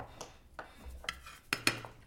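Pasta is served onto plates with a few light clinks of utensils against dishes, spaced unevenly over quiet moments, with sharper taps near the end.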